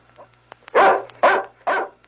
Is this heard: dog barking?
yes